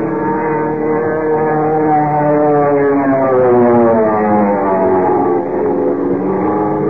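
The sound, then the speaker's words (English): An aircraft power-diving, its motor roaring and wind screaming through the struts: a loud, steady droning whine rich in overtones, with a slightly wavering pitch held without a break from start to end. “motor roaring, wind screaming through the strut”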